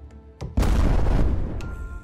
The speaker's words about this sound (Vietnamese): Một tiếng nổ đùng vang lên cả trời đất, nước bắn thành cột lên cao trên không trung.